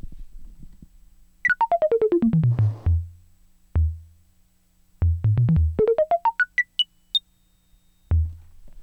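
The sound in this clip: Modular synthesizer notes shaped by a 281 envelope and passed through a 292 module to a mixer: a quick falling run of bright bleeps, scattered low blips, then a rising run, with silences between.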